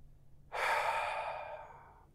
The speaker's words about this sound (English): So let's exhale.